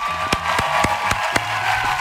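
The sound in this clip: Applause in a steady, moderate wash of clapping, with several sharp, louder individual claps standing out at irregular moments.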